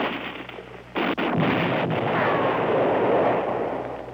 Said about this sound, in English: Grenade, Lieutenant. Grenade.